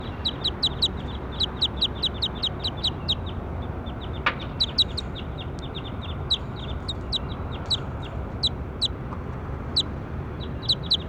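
A bird call repeats throughout: many short, high chirps in a quick, fairly regular rhythm, sometimes in tight bursts, over a low, steady background noise.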